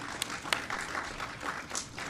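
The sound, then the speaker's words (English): An audience applauds at a project announcement event in Buffalo, a dense, steady patter of many hands clapping at a fairly low level, with a few sharper individual claps standing out. “So let's give AMC and Benchmark a great big round of applause.”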